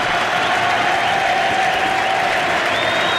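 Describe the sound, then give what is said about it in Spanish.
A stadium crowd chanting and singing at a sports match: a loud, continuous, dense roar of many voices with a sustained sung tone running through it. “Sí, está la cantata del público, que pudo haber llegado antes también, porque se necesitó esto.”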